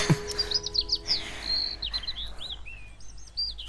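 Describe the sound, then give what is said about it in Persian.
Bird chirping, a quick run of high, sharp tweets and short whistled notes that come in uneven bursts, fairly faint and alone. “اون پرنده کمک کرد یه در پیدا کنیم.”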